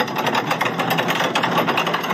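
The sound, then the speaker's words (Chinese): Engine of a heavy vehicle, coupled by rope to another machine weighing tens of tons, as the driver eases gently on the throttle to start moving: a steady, gritty rumble with fast, even throbbing pulses, no voices. “这位驾驶员，这个油门踩的真的是非常的轻柔。然后后面这辆车呢，近乎是一个自然的状态啊，开始动”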